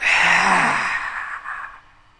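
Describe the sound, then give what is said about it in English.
Deep, sighing exhale at the end of a breathing sequence in a relaxation workshop. A loud, airy rush opens with a faint voiced tone, then tapers gradually over about two seconds, heard alone. “Last time, inhale. Exhale.”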